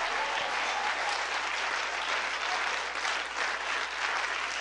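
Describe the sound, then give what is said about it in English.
A church audience claps hands in welcome during a worship service. The applause is dense and steady, holding at an even level for the whole stretch, with no voices standing out. “Now we are going to clap our hand to welcome the Master of the Master.”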